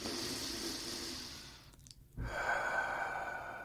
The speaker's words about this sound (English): take a deep breath